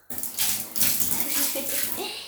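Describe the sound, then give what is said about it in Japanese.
Bathtub water poured to rinse away urine: a sudden gush of splashing water that starts abruptly and runs steadily for about two seconds. “じゃあちょっとお風呂のお湯でおしっこの方を流したいと思います。”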